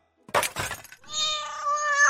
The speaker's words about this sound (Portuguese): O gato travesso salta de uma mesinha perto da janela para se agarrar à cortina, derrubando a mesa e um vaso com uma plantinha no chão